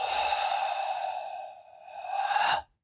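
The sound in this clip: A long, deliberately exaggerated exhale during a guided breathing exercise: a steady, airy whoosh that thins out midway, then swells again in a final push before stopping abruptly.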